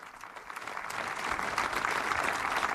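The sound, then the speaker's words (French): A crowd applauds the pope: clapping starts moderately and builds to a fuller, denser level, then holds steady to the end, with no voices standing out. “C'est un cri du pape. Et les gens applaudissent.”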